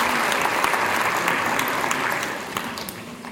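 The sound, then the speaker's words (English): Audience applause welcomes a speaker introduced after an honored high school teacher. Dense, even clapping from a crowd holds loud throughout and eases slightly toward the end. “Please put your hands together and welcome Jack Paul.”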